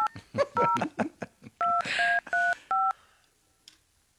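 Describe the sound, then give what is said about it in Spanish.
A phone number is dialed with touch tones, a run of short, crisp electronic beeps at different pitches. Brief talking and one beep come first, then a few evenly spaced tones follow before the line falls quiet. “Estamos marcando otro número.”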